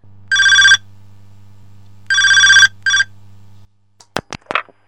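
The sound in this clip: Telephone ringing for an incoming call, one bright electronic ring burst, then after a pause a longer burst and a short one, over a low steady hum, followed by a few sharp clicks.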